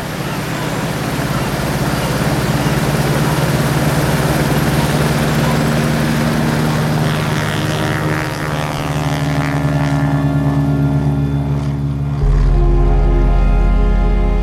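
Loud, steady propeller drone from the engines of a 74-passenger flying boat in flight on a transatlantic route to New York, with a dense harmonic hum throughout and a heavier low rumble swelling in the final seconds.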